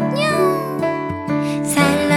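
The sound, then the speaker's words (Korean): A small cat meows a few times in short, whiny cries over sustained musical tones. “그렇게 나를 따르던 작은 고양이”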